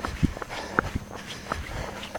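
Running footsteps of a person jogging outdoors on the approach to a drawbridge, a steady series of soft thuds over light background noise.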